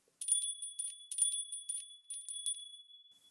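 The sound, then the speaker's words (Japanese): A small bell rung by hand, bright high jingling in many quick shaken bursts with a clear lingering ring between them, fading softer toward the end, alone and fairly quiet. “私が二回鈴を鳴らすから、それまで絶対に目を離さないこと。”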